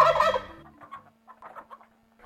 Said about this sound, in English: Farmyard turkeys were domesticated from a species called the wild turkey, native to the eastern and southwestern states and parts of Mexico.